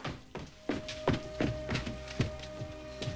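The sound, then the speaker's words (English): Quick footsteps thud down wooden stairs in a fast, even series of hollow knocks, with many steps close together at moderate loudness. “Back at the house, Rob runs down the stairs.”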